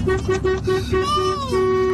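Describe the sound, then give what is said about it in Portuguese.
A car horn honks repeatedly in the street: a run of short, even, mid-pitched beeps, then a longer sustained blast and a final held tone, loud and steady throughout. “E o outro continua buzinando ainda aqui.”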